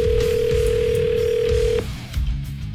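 Telephone ringing tone of an outgoing call, one steady mid-pitched tone held for almost two seconds that then cuts off abruptly, leaving faint low background noise.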